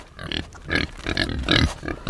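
Pigs at feeding grunt in a rapid series of short, rough, low bursts of uneven loudness, heard alone without speech.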